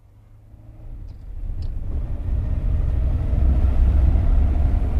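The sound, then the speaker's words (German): A car on a short test drive with a mechanic, its engine rumble building from quiet to a steady, loud low-frequency drone over a few seconds, with faint clicks early on and no talk. “Jean, fahr mit dem Herrn ein Stück, aber nicht zu lange.”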